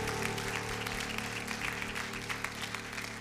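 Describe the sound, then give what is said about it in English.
Applause from a church audience, a dense, continuous patter of many hands clapping at an even loudness. “Let's give y'all a big hand too.”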